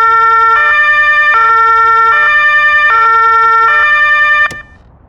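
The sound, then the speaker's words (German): A loud two-tone police vehicle siren, switched on while standing beside the car, alternates steadily between a high and a low tone several times, then cuts off abruptly with a click, leaving a low hum. “Boah, ist die Sirene laut. Da wird man ja taub, wenn man da gleich daneben steht.”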